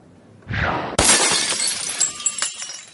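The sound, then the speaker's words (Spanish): A glass vase shattering: a short swishing sound, then a sudden bright crash of breaking glass, followed by scattered tinkling fragments that fade out. “la agita y rompe un jarrón”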